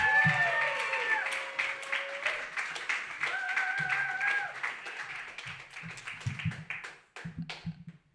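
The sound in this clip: Audience applause greets a reader at a reading night: a dense patter of hand claps with a few whoops that thins out and fades, leaving scattered last claps.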